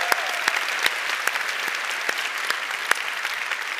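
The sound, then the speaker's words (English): A church audience applauds people in the military, a steady, dense wash of clapping with sharper individual claps standing out throughout. “Let's give all the people in the military a big hand. God bless y'all.”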